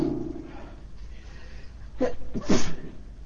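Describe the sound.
Someone with a head cold lets out a sneeze-like outburst: two quick, breathy bursts close together, the second louder, after a quiet stretch with a little talk at the start.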